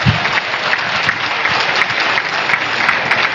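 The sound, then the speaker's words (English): Audience applause for a group of members being recognized at a gathering: steady, dense clapping that fills the whole stretch at an even level, with no voices over it. “Give it up for these phenomenal members.”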